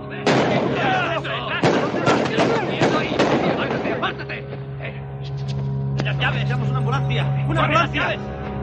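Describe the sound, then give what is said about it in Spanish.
Agents fire on a man near a parking lot fence. A rapid volley of many loud, sharp shots fills the first half, then scattered cracks follow over a steady low hum. “Le alcanza por la espalda, los agentes le acribillan.”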